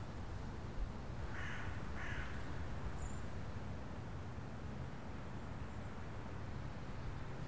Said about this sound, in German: Hörst du die Krähe?